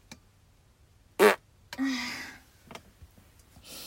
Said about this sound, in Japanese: 今はお仕事中です。おなら出そうです。出してきます。えい。